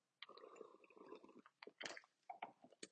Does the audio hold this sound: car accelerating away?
no

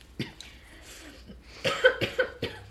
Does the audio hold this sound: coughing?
yes

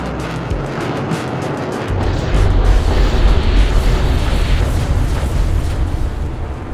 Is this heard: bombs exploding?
yes

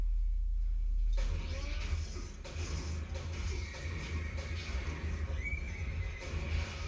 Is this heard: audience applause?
no

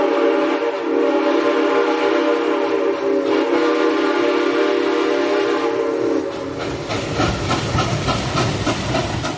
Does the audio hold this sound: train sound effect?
yes

